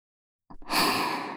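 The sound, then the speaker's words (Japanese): Soft breath blown into the listener's ear, close and intimate: a brief airy puff, then a longer steady hiss of exhaled air that fades gently at the end. “お耳ふうふうされたいの？そんなにハマっちゃったの？”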